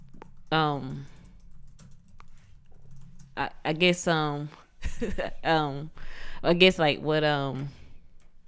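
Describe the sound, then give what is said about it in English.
Light clicks of typing notes on a computer keyboard, scattered and soft, running under a person talking throughout. “I was just kind of typing general notes for me. I mix and master the podcast, so I just was typing notes, but I put it on the wrong screen, so I think my wife thought I was typing a message to her.”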